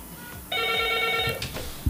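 A telephone rings with an incoming call, a single steady buzzing ring lasting about a second and standing out clearly above a faint background.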